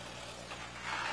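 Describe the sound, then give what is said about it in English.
Steady low engine drone from a McCormick Farmall H tractor with a wide front end, a continuous rumbling idle that grows slightly louder near the end. “It's a farmall as well, I believe. Yep, it is a farmall, but I can't see the numbers and it's not registered.”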